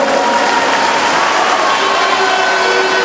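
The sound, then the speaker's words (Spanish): Loud, dense applause from a crowd at a public ceremony handing over a district coliseum, a continuous rush of clapping that stays steady throughout without pauses. “Démosle un gran aplauso a nuestro hermano presidente Evo Morales”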